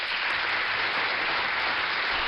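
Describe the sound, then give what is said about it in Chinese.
Applause for a child who has just been praised, a dense, steady patter of many hands clapping at an even level throughout, with no voices over it. “真的要再给你送一个掌声啊”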